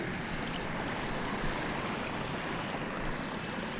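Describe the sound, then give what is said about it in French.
Water gurgles as a stream works its way through a moraine, a soft, steady rushing wash with no pauses or distinct events. “le gloussement de l'eau qui se fraye en chemin”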